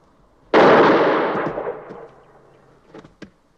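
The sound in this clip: A single loud gunshot bursts out suddenly and decays over about a second and a half. A couple of small faint clicks follow.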